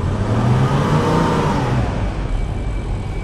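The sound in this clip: Car engine running after a repair that cured a shaking idle, giving a loud, steady mid-pitched roar with a revving swell early on that eases slightly toward the end; no voices.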